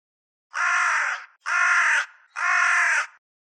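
A crow gives three loud, harsh caws, each long and evenly spaced with short gaps between them, heard alone against silence.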